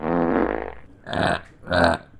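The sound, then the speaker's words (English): A fart, blamed on drinking wine, in a comedy sketch: a long, low, buzzing rasp followed by two shorter, harsher bursts. “Gotta get those wine farts out.”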